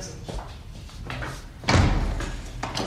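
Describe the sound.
A door is opened: a few soft knocks and rustles of handling, then one solid, fairly loud clunk as it swings, followed by a low hollow rumble that lingers to the end.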